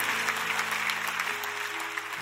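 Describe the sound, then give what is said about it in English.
A church audience clapping their hands, a dense, steady wash of applause that holds at an even, fairly loud level from start to finish. “Clap your hands for that.”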